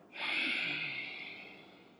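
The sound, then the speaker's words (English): Single forceful exhale pushed out through the nose during a breathing exercise, a breathy hiss that starts sharply and tapers off over about two seconds, quiet and alone. “And push it out through your nose.”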